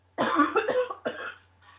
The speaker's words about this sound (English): I have had this cough for seems like weeks now.